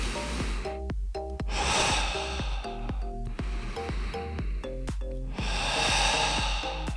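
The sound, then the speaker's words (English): Deep belly breathing, a slow breath in to fill the belly and a breath out to strengthen the core, heard as a couple of long, airy rushes over soft, steady background music. “So let me do this both together. Breathe in to fill your belly.”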